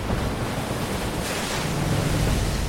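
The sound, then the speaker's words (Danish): Wind and crashing waves of a stormy sea, far out west near the English coast, form a dense, continuous roar of surf and gusting air, steady and loud throughout with no voices. “Sikke et stormvejr. Det må blive et vældigt blæsevejr i Danmark i morgen.”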